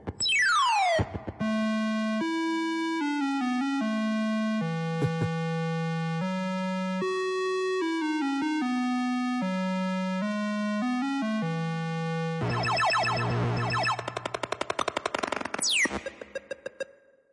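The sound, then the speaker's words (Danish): Chiptune soundtrack from an old pixelated movie-tie-in video game: a buzzy square-wave melody of stepping notes, opening with a falling electronic sweep and ending in a dense, noisy burst with a rising sweep. It is loud and continuous, with no voices. “Men jeg har fundet et lille klip på nettet, hvor man kan høre lydsiden fra det her spil. Og det fortæller måske lidt noget om kvaliteten.”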